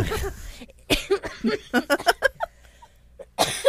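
Coughing after accidentally inhaling spit: a rapid run of many short, harsh coughs mixed with breathy chuckling, then a pause before a final burst.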